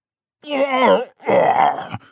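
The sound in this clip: Strained groans come from someone bending to lift a heavy package: two drawn-out vocal efforts separated by a short pause, the first voiced and tonal, the second breathier and rougher, ending in a brief exhale.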